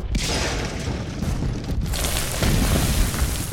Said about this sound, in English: Let's flush him out. Grenade!